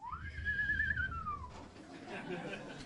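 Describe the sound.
A person whistles in imitation of a knife grinder's whistle: one clear tone glides upward, holds steady, then slides back down before fading into background hiss.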